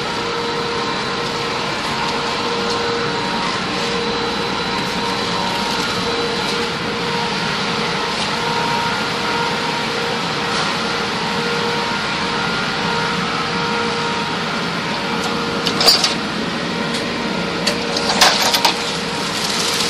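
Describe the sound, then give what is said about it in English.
A spreader machine hums steadily as it runs down a long table to the far end. Near the finish, a couple of short, sharp clacking bursts mark it stopping and automatically cutting. “And you'll hear the machine run, and it goes to the other end, and it will actually automatically stop, cut, and return.”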